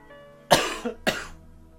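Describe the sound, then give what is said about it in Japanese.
Two sharp, forceful coughs burst out in quick succession as someone chokes, the first with a short rasping tail, followed by quiet. “なんでむせちゃうかな”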